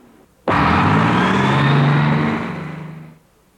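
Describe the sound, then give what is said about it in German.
A bus engine roars in abruptly and holds a steady, loud rumble for a few seconds, then fades away near the end, with no talk. “Ja, das ist ein Bus. Das ist ein Autobus.”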